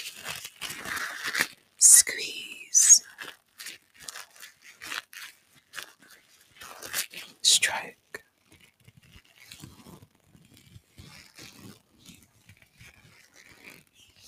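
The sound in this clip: Brushing sounds for ASMR: soft, scratchy strokes in many irregular bursts, some briefly louder than others, with quiet whispering alongside.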